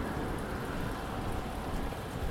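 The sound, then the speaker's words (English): Rain falls in a steady, dense hiss, soft and even throughout, with no separate drops or thunder standing out. “I hate the rain. But, you know, we are in a drought, so it's nice.”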